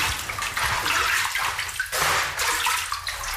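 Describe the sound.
Water runs steadily as someone washes in a radio-play scene, a loud rushing, splashing stream with a brief dip partway through before it surges again.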